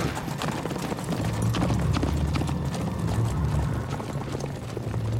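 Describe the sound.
Horse galloping away, hooves pounding in a rapid, continuous drumming beneath a thick, steady rumble, loud and sustained throughout.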